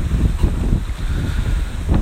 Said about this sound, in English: Not sure what you're hearing more, the wind or the waves.